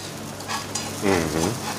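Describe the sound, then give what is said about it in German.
Chopped shallots sauté in butter in a pan, giving a soft, steady sizzle throughout, with a brief voiced sound rising over it midway. “Und da habe ich in der Pfanne Butter drinnen mhm. und äh, habe vorher Schalotten gehackt. Die röste jetzt äh, leicht goldbraun an.”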